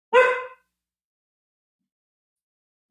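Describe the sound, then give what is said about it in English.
A dog gives one short, loud, sharp bark, followed by silence and a brief faint sound at the very end. “here, excuse my dog, one sec.”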